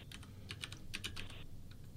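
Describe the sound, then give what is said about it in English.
Faint typing on a computer keyboard: a quick, uneven run of soft key clicks over a low background hum. “I'm typing it in right now.”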